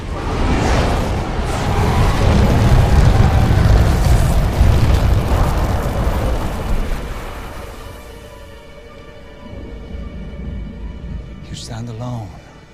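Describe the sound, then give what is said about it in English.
Fire leaping from two burning piles and zooming forward makes a loud, broad roaring whoosh that holds for several seconds, then eases into a quieter low rumble. “Fire leaps from two burning piles behind Zhao”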